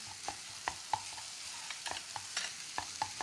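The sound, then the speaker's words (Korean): Garlic and green onion sizzle as they fry in a hot pan over high heat. A soft, steady hiss runs under repeated sharp clicks and scrapes of stirring, fairly quiet overall, with no talking. “그 다음에 마늘도 넣을게요.”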